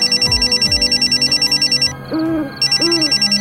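A mobile phone ringtone of rapid, evenly repeated high electronic pulses rings steadily, breaks off briefly for a lower warbling tone, then resumes.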